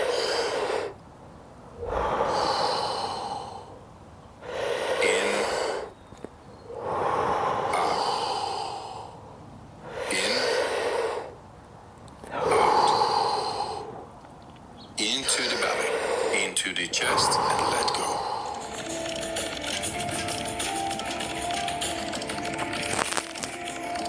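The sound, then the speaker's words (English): Heavy rhythmic breathing in and out during a guided breathing exercise. Several loud, breathy bursts come at a steady pace, then merge into a longer, continuous rushing stretch. “No pause between inhalation and exhalation.”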